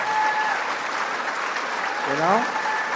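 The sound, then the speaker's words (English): An audience at a speech given at the CIA breaks into steady, dense clapping that continues through the whole few seconds, with a brief voice rising over it near the end. “That's got to be his staff. No CIA people are clapping about that crap.”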